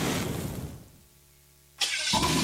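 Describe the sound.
A motorcycle engine starts: after a fading rush of noise, a low steady mechanical hum holds for under a second, then the engine catches with a sudden loud burst and keeps running loudly to the end.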